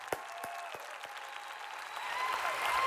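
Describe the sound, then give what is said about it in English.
A church audience rises and applauds to welcome a guest speaker. Steady clapping swells toward the end, and a few sharp individual claps stand out near the start. “So come on, I want you to stand to your feet right now and give Pastor Gary Clarke a great welcome.”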